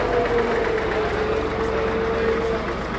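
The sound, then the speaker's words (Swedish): A red and yellow double tractor drives past at a tractor show, its engine a steady, loud, low rumble that holds evenly throughout. “Nu kommer det en dubbeltraktor körande förbi oss här.”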